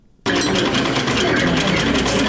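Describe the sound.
Sewing machines run in a tailoring training workshop where women work, a dense, continuous mechanical whir that starts abruptly and holds steady and loud.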